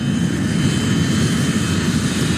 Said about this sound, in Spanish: vamos a la pista desde donde nos van a llevar al avión.